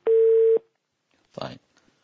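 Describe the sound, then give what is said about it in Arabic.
A single steady telephone tone, about half a second long, sounds after a call disconnects; a brief burst of voice follows. “طيب انقطع الاتصال تقريبا.”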